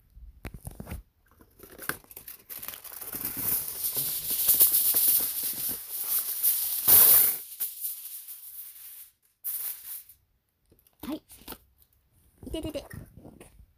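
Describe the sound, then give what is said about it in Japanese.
Aluminium foil crinkles and rustles as a generous sheet is spread out, giving several seconds of sustained dry crackling. After a pause, a few shorter rustling bursts follow. “そしてこれはさっき私が持ってきたアルミホイル。じゃあ早速敷いていきたいと思います。”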